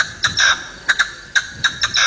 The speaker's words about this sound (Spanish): La perdiz. Eso es una perdiz. Es una perdiz.